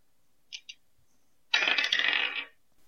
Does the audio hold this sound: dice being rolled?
yes

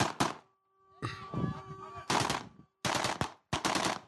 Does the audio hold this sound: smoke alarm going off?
no

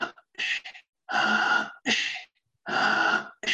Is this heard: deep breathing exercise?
yes

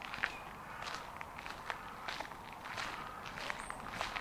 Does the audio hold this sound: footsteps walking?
yes

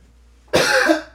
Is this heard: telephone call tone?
no

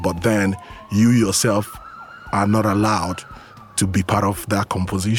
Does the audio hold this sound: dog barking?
no

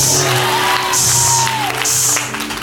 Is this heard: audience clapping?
yes

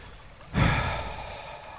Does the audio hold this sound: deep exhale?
yes

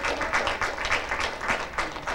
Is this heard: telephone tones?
no

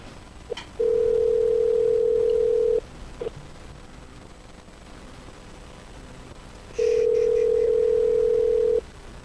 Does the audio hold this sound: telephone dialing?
yes

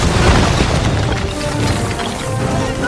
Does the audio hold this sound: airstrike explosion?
yes

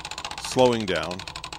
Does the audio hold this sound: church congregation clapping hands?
no

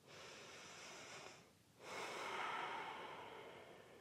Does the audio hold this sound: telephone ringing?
no

